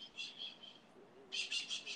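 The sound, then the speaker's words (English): Faint bird chirps outdoors: high, quick tweets repeat in short bursts, grow a little livelier toward the end, and sit over a low background hiss. “if you hear those birds tweeting”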